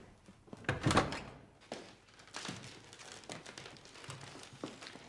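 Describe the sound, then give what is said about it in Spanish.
A living-room door swings shut with one loud thunk near the start, followed by quieter knocks, shuffling and rustling. “Se quita el abrigo, Draiman cierra la puerta del salón.”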